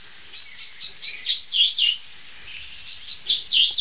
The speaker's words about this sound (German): Versucht sie dann Singdrossel nachzumachen oder was? Warnruf Singdrossel würde ich mal sagen.